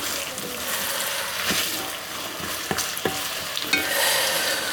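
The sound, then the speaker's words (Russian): Onion frying in a pan makes a steady, bright sizzle throughout, broken by a few sharp scrapes and clicks of stirring. “Лук пожарился. Добавляем морковь.”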